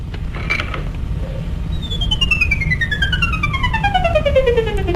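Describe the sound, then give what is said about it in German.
An Ondes Martenot, an early electronic instrument, is played in a 1934 British television demonstration. After a hissy, noisy start, a sustained tone with rich harmonics enters and glides steadily downward in pitch over the background noise. “Allerdings haben wir gerade die Ondes Mantrot gehört.”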